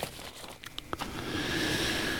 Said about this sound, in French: Bon, allez, je range mes petits papiers. En attendant, je fais le ménage.